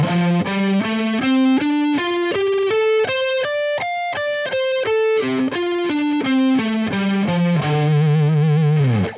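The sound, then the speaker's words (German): A pentatonic scale in the root key played on an instrument with distortion and chorus effects: clear single notes step upward in an even rhythm, then step back down, ending on a long held note with wavering vibrato. “Ich kann ja mal immer so ein paar dann vorspielen. Also eine Pentatonik auf der Grundtonart würde dann so klingen zum Beispiel.”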